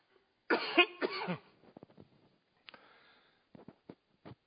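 Coughing from a tickling throat during a church sermon: two strong, rough coughs in quick succession, followed by a few faint throat and breath noises amid near silence.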